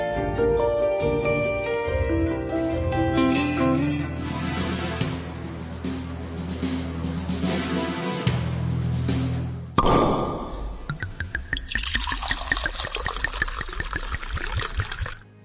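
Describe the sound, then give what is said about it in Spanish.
A wine bottle is uncorked: a sharp pop cuts through the music, followed by a stretch of liquid pouring and trickling. “ya ha sonado el descorche de botella”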